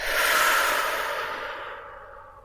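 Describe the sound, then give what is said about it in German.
A deep, audible breath during a guided relaxation exercise: one long, airy exhale that starts strong and gradually fades away over about two seconds. “So atme tief ein und wieder aus.”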